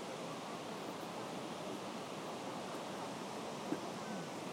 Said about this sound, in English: Waterfalls. I don't know if you can hear them in the background here.